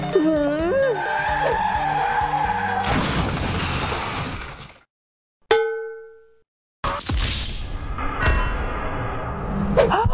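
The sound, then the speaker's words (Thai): Cars skidding and crashing, with loud screeching, shattering glass and metallic clangs, broken by a brief silence and a short ringing ding before the noise resumes. “เมื่อกี้รถชนกันเหรอขับรถประสาทอะไรกันเนี่ยอ่อนหัดเหลือเกิน”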